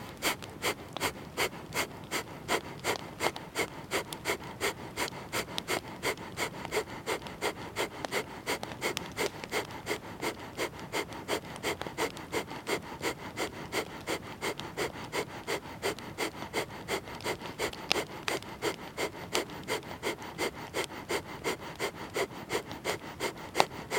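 Kapalabhati breathing during a pranayama practice, with forceful exhales pushed through both nostrils. Many rapid, sharp, evenly spaced puffs follow one another in a steady, unbroken rhythm from start to end, each a short breathy burst with no talk.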